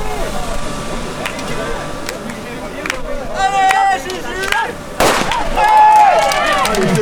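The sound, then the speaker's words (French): A single sharp starting-pistol shot cracks out midway, loud and abrupt. People talk before and after the shot. “Alors attention à ne pas faire partir le coup de feu avant l'heure.”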